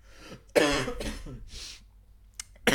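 A person has a coughing fit after something went down the wrong way: a few harsh, throaty coughs and throat clearing in uneven bursts, the loudest near the start, trailing off into quieter hacks.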